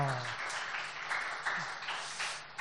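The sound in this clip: Applause at a church baptism ceremony, a soft, dense patter of many hands that stays steady and fairly quiet throughout, with a brief voice at the very start.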